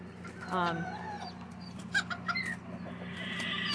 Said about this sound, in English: there's a fight, be a hen fight. Wow, I should get this on there.